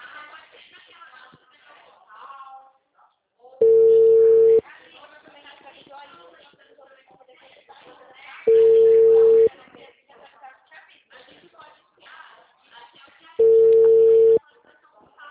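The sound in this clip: Three evenly spaced ringback tones sound while a phone call waits to be answered, each a steady, buzzy tone about a second long, with someone talking in the gaps between them.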